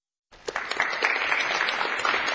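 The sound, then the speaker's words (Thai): Thunderous applause from a board of executives starts abruptly after a moment of silence and settles into dense, steady clapping that holds to the end. “เสียงปรบมืออย่างกึกก้องจากคณะผู้บริหาร”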